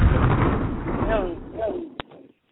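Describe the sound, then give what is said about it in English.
A bomb-drop explosion sound effect on a radio show: a rumbling blast with wavering whistle-like tones that fades out, ending in a sharp click and then near silence. “That was the bomb. They dropped the bomb on me?”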